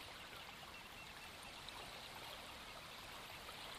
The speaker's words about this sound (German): Du kannst im Hintergrund dieses sanfte Geräusch wahrnehmen, das Meeresrauschen.